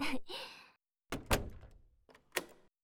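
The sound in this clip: A door is opened with a few dull clunks and rattling knocks in quick succession, fairly quiet, the thuds spread over a couple of seconds.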